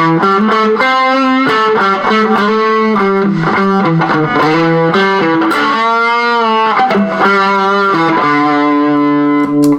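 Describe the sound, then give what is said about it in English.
An electric guitar plays through a fuzz pedal with a loud, thick, saturated tone. A melodic line of sustained notes moves through several pitches, with a wavering held note midway, and ends on a long low note. “so that's just a little bit more fuzz.”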